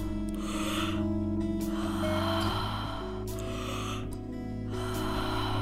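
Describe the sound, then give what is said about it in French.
Deep breathing during a workout exercise: a few long, airy inhales and exhales come in turns over a steady backdrop of music. “Inspirez, expirez. Faites de belles respirations profondes.”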